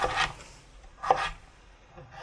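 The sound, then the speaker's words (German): A professional cook's knife cuts celery into slices and strips in a few quiet, crisp chopping bursts separated by short pauses. “Ich schneide den also erstmal in Scheiben. Und dann in Streifen.”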